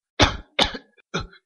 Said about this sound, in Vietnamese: Ông già ho thành tiếng.